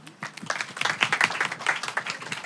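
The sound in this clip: Audience applause welcoming a guest onto the stage at a live talk event: a crisp, irregular patter of many hands that rises quickly after a quiet start and stays lively throughout.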